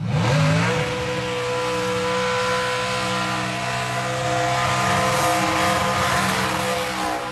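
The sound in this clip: Cars revving and doing burnouts at a motor festival with drag racing and street cruising: a loud, continuous engine roar that swells at the start, then holds steady throughout.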